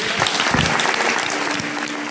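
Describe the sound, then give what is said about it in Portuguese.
Congregation applauding at a church communion service: dense, even clapping that holds at a steady level through the whole clip without a break. “Vamos aplaudir a ele.”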